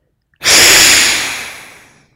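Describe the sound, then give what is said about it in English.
A single forceful exhale through one nostril during an alternate-nostril breathing exercise: a loud, airy rush of breath that starts abruptly and then tapers off gradually over about a second and a half. “take a deep breath through both nostrils and begin side one, closing, and exhale side one.”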